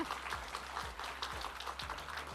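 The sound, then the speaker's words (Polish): Faint applause plays with quick, fairly regular bursts of clapping over a low, thudding background, and no speech. “Ogromne brawa dla nich.”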